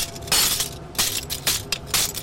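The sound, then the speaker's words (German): Window pane glass is smashed with a hammer into small and larger shards in Nairobi, making a few loud, crunching, shattering impacts with scattered tinkling between them and no talk. “Mit einem Hammer zertrümmert sie eine Fensterscheibe zu kleinen und größeren Stücken.”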